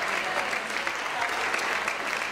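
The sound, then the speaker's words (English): A church audience claps their hands together in worship, a dense, steady wash of applause that holds at an even loudness throughout. “Clap your hands to him together.”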